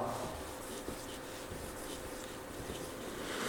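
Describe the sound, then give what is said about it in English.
Writing on a board gives a faint, steady, scratchy rubbing that runs continuously through the whole short stretch, with no voices. “if you were to write it like this”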